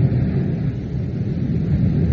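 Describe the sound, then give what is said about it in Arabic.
An Atlantic thunderstorm brings a steady, deep rumbling roar mixed with dense, rain-like hiss. It stays even in loudness throughout, with no voices. “لا يمر وقت طويل حتى تأتي عاصفة الأطلسي الثاني،”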